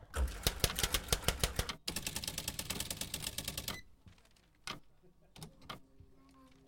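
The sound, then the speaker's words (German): Ticket machine in a video game printing a ticket after a button press: rapid, even mechanical clicking, then a dense rattling printer run lasting about two seconds, followed by a few softer clicks. “dann drücken wir nochmal auf die Taste und äh, hoffen auf das Ticket Nummer 999.”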